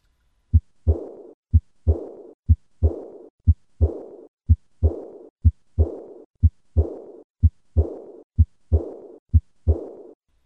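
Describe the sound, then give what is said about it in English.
Heart sounds with the murmur of aortic regurgitation, recorded at the fourth left intercostal space, play as about ten even beats. Each beat is a sharp thump followed by a soft, blowing whoosh that fades away. “This is aortic regurgitation.”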